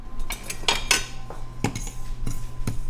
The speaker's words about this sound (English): Okay, so we are going to toast just a tablespoon of sesame seeds. You don't really need oil, just about medium low.